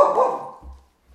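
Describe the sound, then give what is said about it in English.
A single loud dog bark, sharp and mid-pitched, that rings out and then fades away over about half a second, with quiet afterward. “Yeah, see, whenever the dog barks, it means a podcast is coming to an end.”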